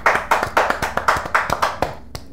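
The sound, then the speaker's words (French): Applause rings out during a church worship broadcast as people clap to praise God. Many sharp, distinct claps fall in a quick, uneven rhythm, with no talking over them. “Acclamons pour notre Dieu.”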